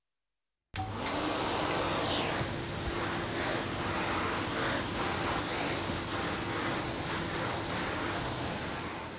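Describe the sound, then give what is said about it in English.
Steady droning roar of a floor-cleaning machine, switching on abruptly after a moment of silence and then holding a constant, hissing whir with no voices. “This machine cleans floors.”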